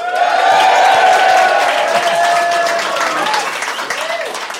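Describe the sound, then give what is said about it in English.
A live audience at the O2 cheers and applauds loudly, with sustained whoops and shouts over thick clapping that stays strong and eases slightly toward the end. “I think our audience make the sound of 20,000 people. So thank you so much for that.”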